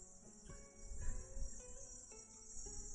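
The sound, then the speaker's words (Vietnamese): Cicadas drone around a house in a faint, continuous high buzz that holds steady throughout, layered over low background noise. “Đấy, bây giờ còn có tiếng ve kêu này.”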